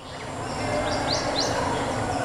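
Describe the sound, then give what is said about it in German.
Birds chirp in an exhibition soundscape: a few short, bright rising tweets over a steady, rushing wash like distant splashing water. “Die Vögel zwitschern, die Grillen zirpen und irgendwo in der Ferne plätschert das Wasser.”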